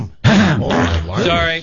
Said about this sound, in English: Phlegm.